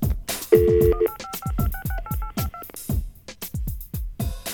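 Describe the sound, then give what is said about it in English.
Touch-tone keypad beeps as a toll-free 800 number is dialed: a longer opening tone, then a quick, even run of about ten short two-note beeps at a steady rhythm, moderately loud and without voices. “And the first thing we do is to dial this 800 number. 1-800-whatever-whatever-whatever. Kids, get your DTMF decoders ready.”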